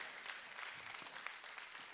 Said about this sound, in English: I'm going to get you past the golf clap today.